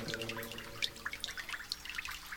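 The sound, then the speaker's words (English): Water leaking and dripping in a flooded basement with about two inches of standing water: many small, irregular drips and trickles, faint and scattered, with no talking. “There's this thing leaking down here. I thought it might be a pool or something. A lot of water.”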